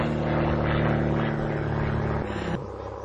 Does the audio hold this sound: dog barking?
no